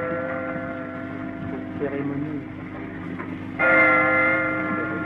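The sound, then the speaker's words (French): A church bell tolling a death knell at a ceremony commemorating the war dead: a resonant bell tone hums steadily, then one louder strike lands near the end and rings on, over a low rumble. “les sons que vous entendez, comme le glas actuellement et la sonnerie aux morts qui va succéder”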